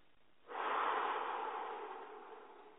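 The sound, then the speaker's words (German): A single long, deep breath begins with a soft onset, then a steady airy rush that slowly fades, with no talking. “Deshalb atme jetzt bitte tief ein und aus.”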